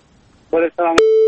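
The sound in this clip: A caller's telephone line connects during a call-in program: two short buzzy tones, then a click and a steady electronic beep tone.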